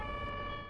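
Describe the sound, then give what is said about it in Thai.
A steady, loud ambulance siren tone rich in harmonics, held without a clear rise or fall for under a second. “รถพยาบาลอะ”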